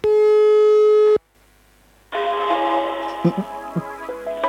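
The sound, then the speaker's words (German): A steady, loud ringback tone of a telephone call to a rail company's service line sounds alone for about a second. A short silence follows, then a denser stretch of other sound. “Da habe ich bei der Bahn angerufen.”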